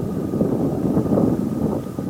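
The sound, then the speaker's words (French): Strong wind at a mountain base camp where tents are pitched, blowing as a steady, dense, low rumble against the microphone and holding at an even level throughout. “Il y a énormément de vent.”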